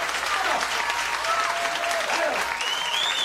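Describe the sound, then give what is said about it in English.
Audience applause at a live jazz club performance: dense, steady clapping that holds at an even level throughout. “Let's have a nice round of applause for Evan Jones.”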